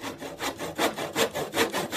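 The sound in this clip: A handsaw cuts through wood in a steady back-and-forth rhythm, many evenly spaced rasping strokes, each swelling and fading, loud and alone.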